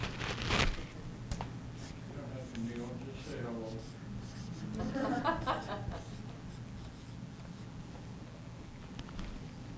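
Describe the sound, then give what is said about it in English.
A marker writes on a surface while someone kneels on the floor, and the marker is running dry. Soft scratching strokes come and go underneath a voice that keeps talking. “I'm going to write it on here and see if we agree, if you think that this could be a real problem. I'm going to kneel down on the floor so that I can write, okay?”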